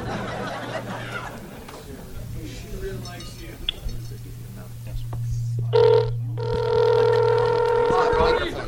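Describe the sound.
A telephone rings after a number is dialed: a steady, buzzing tonal ring starts late and holds loudly to the end, after a stretch of people talking.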